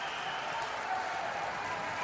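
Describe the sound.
A basketball crowd at a Galesburg game cheers after a player's first dunk of the season, an even, unbroken wash of faint roaring noise with no distinct peaks.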